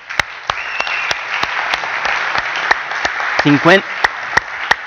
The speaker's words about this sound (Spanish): a eso le tenemos que dar un aplauso